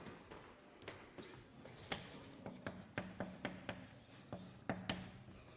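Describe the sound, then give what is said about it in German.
Writing as a two-dimensional function example is written out in a lecture: many short, sharp scratching strokes in an uneven rhythm, faint and with no talk over them. “Das Beispiel schreibe ich jetzt gleich als was Zweidimensionales mit f von x und y.”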